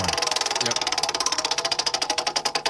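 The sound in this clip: A prize wheel spins, its clicker ticking in a rapid, even stream of many sharp clicks that carries on steadily throughout.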